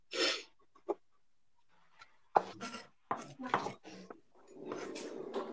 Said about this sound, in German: Ich schneide immer noch die Zwiebeln.